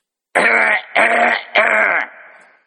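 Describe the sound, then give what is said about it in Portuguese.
A person clears their throat three times in quick succession early in the morning. Each rasp is harsh and loud, and the last one trails off more softly. “Temperar a garganta é bom, viu, logo cedo.”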